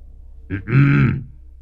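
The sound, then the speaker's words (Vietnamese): Throat clearing by a ritual master by a pond: a short low grunt followed by a longer, rough, voiced rumble, heard alone over faint background noise. “Đoạn nhìn ra giữa ao hắng giọng”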